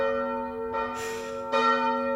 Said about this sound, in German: Da werden Erinnerungen wach bei mir an Sonntagmorgende, wo ich von solchen Kirchenglocken geweckt wurde.